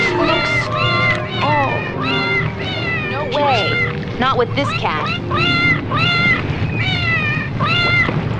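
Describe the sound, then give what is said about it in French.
Cat meowing in a film soundtrack: many drawn-out meows follow one another steadily, some longer than others, loud over a constant low background hum. “parce que les sons, là, il y a des miaulements un peu plus longs, mais le reste du film, c'est deux sons différents.”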